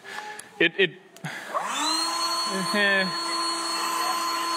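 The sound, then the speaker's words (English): A small battery-powered blower switches on with a few clicks, its motor whirring up in pitch before settling into a steady, high-pitched whine that runs continuously to the end. “It blows, right? But I mentioned I have a problem because recently in the last couple years, my grandpa gave me this one. This is the baby version of that one.”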